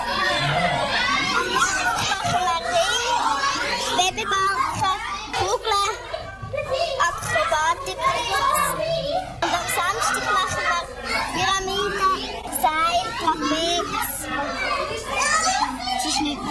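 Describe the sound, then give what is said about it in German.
Many children's voices fill a noisy children's circus practice: constant overlapping chatter, shouts and calls form a loud, unbroken wall of sound. “Ja, ein richtig kunterbunter und auch lauter Haufen beim Üben.”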